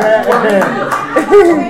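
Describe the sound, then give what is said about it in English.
A baby claps her hands a few times in quick, light pats while adults talk and chuckle around her, the small claps mixing in with the voices. “So, the baby, clap for yourself again. Clap for yourself.”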